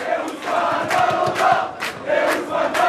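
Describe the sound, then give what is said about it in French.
Football supporters chant on a bar terrace in a small street in Paris's 14th arrondissement during a penalty shootout. The loud crowd chanting is continuous and swells in regular rhythmic pulses, with voices rising and falling together. “Entendez le chant des supporters de cette petite rue Raymond Losserand dans le 14e arrondissement.”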